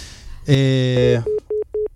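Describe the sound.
Busy tone from a landline telephone call cutting off: a short voice-like burst, then four evenly spaced, steady mid-pitched beeps separated by brief silences.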